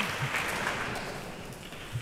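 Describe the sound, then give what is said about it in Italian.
A concert audience applauds a cellist who has returned to the stage for another encore. The clapping is a faint, steady patter of many hands with no clear break. “invece rientra ancora una volta con il violoncello a ricevere gli applausi del pubblico, si inchina nuovamente, si è seduto, un terzo bis.”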